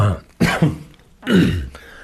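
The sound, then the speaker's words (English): Coughing, with two harsh throat-clearing bursts about a second apart, each short and fairly loud, and a quiet pause between them. “Well, now you're making me cough.”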